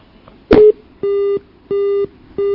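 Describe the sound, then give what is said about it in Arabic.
A telephone busy tone sounds after a caller's line drops during a call-in program: a sharp click, then three steady, identical beeps in an even rhythm, loud and alone. “يبدو أن الاتصال انقطع.”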